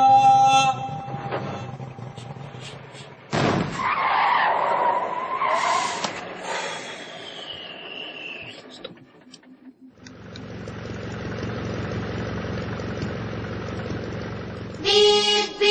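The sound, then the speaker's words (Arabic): An ice cream truck engine revs and roars, with a bursting, skid-like noise and changing mechanical drone over about sixteen seconds. “سيارة بوزة عم بتنادي، زمورة بيحكي حادي وبادي.”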